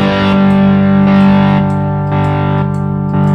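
Distorted electric guitar runs through a chain of overdrive pedals, including a Sansamp and a Box of Rock, with the compressor removed. Loud, buzzing sustained chords ring out, several struck in turn, each decaying briefly before the next.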